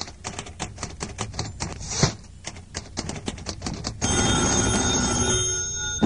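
A telephone bell rings in a French language-course recording, a sustained steady ring filling the last two seconds after a run of rapid sharp clicks and taps.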